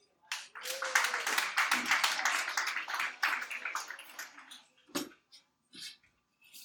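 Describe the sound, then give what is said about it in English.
An audience at a poetry event applauds with a lively burst of clapping that fades into a few scattered claps. “Let's have another round of applause for Alexa.”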